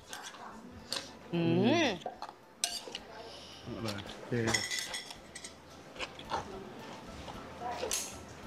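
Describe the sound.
Spicy salad with fish sauce being pounded in a mortar, with clattering, clinking strikes of pestle and bowl at an uneven rhythm while several people talk over the work.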